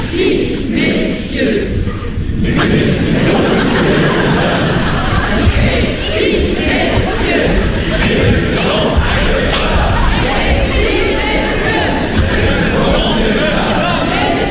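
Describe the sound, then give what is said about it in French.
A theatre audience chatters among themselves in a loud, continuous babble of many overlapping voices, with a few louder calls rising out of the hubbub. “Cessez de parler entre vous, messieurs, dames, on ne s'entend plus vieillir.”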